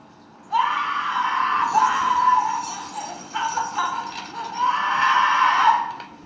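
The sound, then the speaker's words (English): A woman's shrill, sustained scream in a horror film scene, bursting in loud and holding for several seconds, dipping briefly midway before surging again toward the end. “I love how you hear the scream, you can still hear the scream even louder as she walks into the bathroom, but then nobody's in there.”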